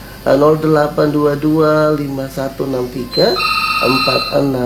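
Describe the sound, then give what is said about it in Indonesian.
A telephone rings with an incoming call, a steady electronic tone that starts partway through and runs under a continuous, loud voice to the end. “Terima dulu telepon yang sudah hadir, kerangan siapa di sana.”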